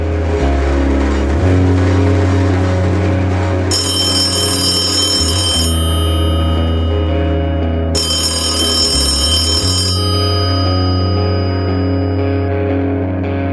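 A telephone rings twice on an outgoing call, each ring lasting about two seconds, over loud, sustained background music.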